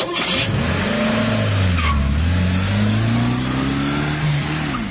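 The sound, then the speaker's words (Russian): A car engine revs as the car drives off, a loud, steady engine drone whose pitch dips briefly and then climbs smoothly as it accelerates, with no voices. “Лорд Питер Уимзи и его слуга погрузились в машину”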